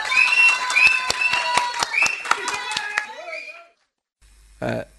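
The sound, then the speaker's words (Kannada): Rhythmic handclaps from people at a village gathering, evenly spaced sharp claps over about three seconds with voices sounding over them, then a short silence and a brief burst of noise. “ಬಾರ್ಲ Madeva, ಏ ಚಪ್ಪಾಳೆ ಹೊಡಿರ್ಲ. ಇವನುವಿಯ ನಮ್ ಕೃಷ್ಣಪ್ಪ ಅವ್ರ ನಂಗೆ ಸಿಟಿಲ್ ಓದ್ಕೊಂಡ್ ಬಂದವನೇ, ಹೊಡ್ರಿ ಚಪ್ಪಾಳೆಯ.”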